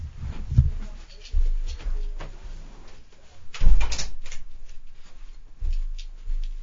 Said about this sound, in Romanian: Stai să închid ușa.